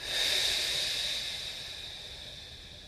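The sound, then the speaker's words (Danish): A slow, deep breath through the nose during a guided relaxation exercise makes a soft, steady airy hiss that holds and then gradually fades, faint and alone. “Vi tager sådan en dyb indånding gennem næsen og helt ned i maven, så under navlen. Og på udåndingen, der giver vi ligesom slip.”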